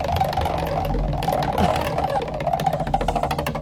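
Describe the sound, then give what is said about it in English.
A prize wheel spins, its pointer ticking in a steady stream of many rapid clicks over a continuous low rumble. “Let's spin that wheel for you. Here we go.”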